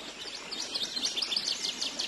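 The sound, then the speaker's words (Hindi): Birds chirping in a scenic landscape of rivers and plains: a dense, continuous chorus of many quick, high twittering calls that overlap for about two seconds, with no voices. “इस सुरम्य वातावरण को और भी संगीतमय बना देता है पक्षियों का कलरव।”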